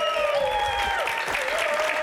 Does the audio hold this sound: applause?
yes